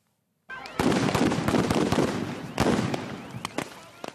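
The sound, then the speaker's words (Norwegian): Police fire tear gas grenades at street demonstrators in Ferguson, a suburb of St. Louis, Missouri: a burst of sharp cracking bangs over a loud, dense rumble of crowd noise, with a few more scattered pops as it thins out. “Politiet skyter tåregassgranater mot demonstranter i gatene i Ferguson.”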